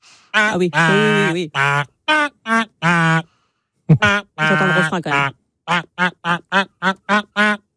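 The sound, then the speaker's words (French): A voice sings a hit song in a nasal, quacking duck imitation for a pink duck character, starting with long, sustained, buzzy notes and breaking into a quick run of short, staccato quacked syllables, loud and alone. “Un mignon canard rose qui va nous interpréter son tube en version canard. Attention, ce matin, ça fait comme ça.”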